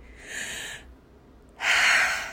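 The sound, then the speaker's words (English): Two deep, audible breaths are taken alone with a short silent pause between them. The second breath is louder and more forceful than the first. “the first thing you want to do is just take a deep breath.”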